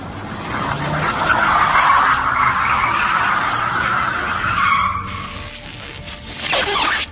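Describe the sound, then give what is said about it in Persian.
A toy car drifts with its tires skidding. A sustained high squeal swells and holds for about five seconds, then a rougher, broader scraping burst follows near the end. “خب دریفت خب برو”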